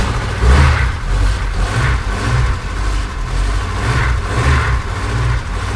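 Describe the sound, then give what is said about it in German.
A Ford Taunus car engine revs in repeated surges over a steady low rumble, with no talk. “Der Wagen, der sich hier zu Wort meldet, hat eine große Karriere hinter sich und setzt die erste Duftmarke eines Modells, mit dem Ford in Deutschland über fast 5 Jahrzehnte identifiziert wird”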